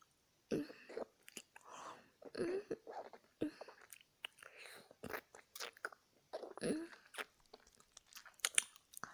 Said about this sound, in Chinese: 这里有只小老鼠啊，看人家抓住它，然后一口吃了。